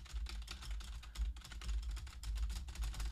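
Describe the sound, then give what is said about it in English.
Typewriter-style theme music from a wrestling video game plays quietly. Rapid, clacking key strikes run steadily over a low, thudding bass beat throughout. “in the game they just made it like a typewriter”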